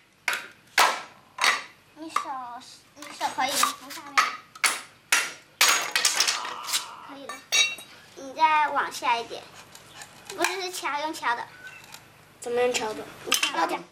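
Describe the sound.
Sharp knocking of a tool tapping something downward into place during a repair job, a quick run of many hard, bright strikes in the first half, with people talking throughout and over the later taps.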